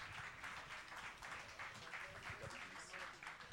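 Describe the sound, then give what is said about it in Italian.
Faint applause for a blues band at the final of a poetry and video prize, a soft steady patter of many hands held at an even level throughout. “Ancora un applauso agli straordinari di aprile e al loro Begonie Blues.”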